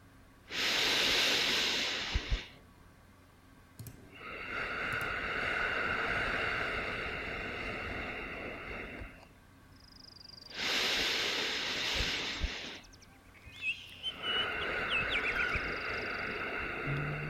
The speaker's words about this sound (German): Atme also tief und voll.